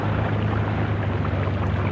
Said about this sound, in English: I'll throttle back a bit while I find the channel.